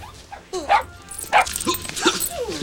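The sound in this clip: A rescued dog gives a few short yips and whimpering barks in quick bursts, mixed with fainter rustling in between.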